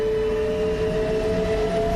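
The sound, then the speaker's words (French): A steady, low metallic rumble of a departing train made up of freight and mail wagons, with a constant tonal whine riding over the rumble and no clear change in loudness. “Le convoi s'ébranle dans un puissant grondement métallique.”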